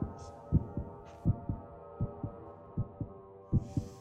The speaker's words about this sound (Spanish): Era el latir del corazón del viejo.